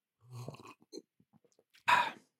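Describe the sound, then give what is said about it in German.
Someone takes a sip of coffee with soft mouth sounds, swallowing noises and a few faint clicks, ending in a short, louder breathy burst, all quiet and with no talking. “Ich nehme einen Schluck Kaffee.”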